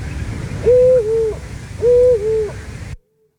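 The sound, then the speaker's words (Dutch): Two different female Eurasian eagle-owls hoot one after the other, calling with excitement at a nest site: two deep, loud, two-part hoots, evenly spaced and alone, followed by silence. “Oh, dat zijn 2 verschillende vrouwtjes vlak achter elkaar geplaatst. Maar je hoort het bijna niet. Dat klopt. Maar het zijn 2 verschillende oehoes.”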